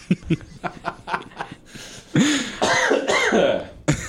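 Coughing mixed with laughter: a run of short, harsh bursts, then longer voiced chuckling sounds.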